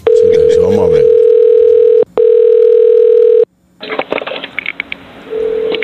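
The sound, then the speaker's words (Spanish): A steady telephone tone plays while a call to a postal service helpline is transferred to an operator. The single loud tone breaks briefly, a voice is heard near its start, and noisier sounds follow before the tone returns faintly. “Por favor, permanezca en línea mientras se transfiere su llamada al operador.”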